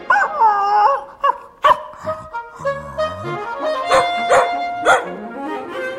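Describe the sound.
A dog barks and howls, with a few sharp, loud barks standing out among drawn-out, wavering whining and howling tones that rise and fall in pitch.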